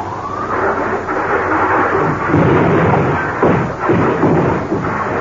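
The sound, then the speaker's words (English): Loud, steady roaring rumble of a powerful suction apparatus under test at a rocket research center, continuous throughout with a few surges in intensity. “I believe the suction apparatus is about to be tested at the far end of the center here. Yes, they seem ready to test it now.”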